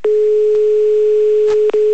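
A telephone line tone while someone is called again: a steady, loud, single-pitch hum held throughout, with a few faint clicks and a brief dropout near the end.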